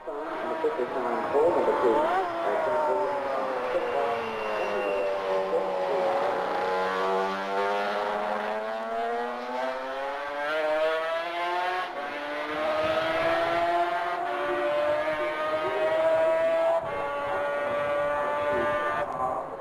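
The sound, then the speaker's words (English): A race vehicle laps a road course at speed through Quarter Bridge, its high, buzzing engine note sustained and loud, the pitch dipping and then climbing again in long sweeps as it runs through the corner and accelerates away. “Lap 2 was destined to be the quickest ever by John Williams. We follow him round, firstly at Quarter Bridge.”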